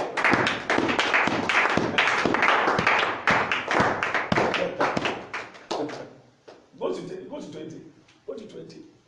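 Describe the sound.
People clap along at a midnight prayer service, with brisk rhythmic claps under loud voices for about five seconds, then the clapping drops away and only talk continues.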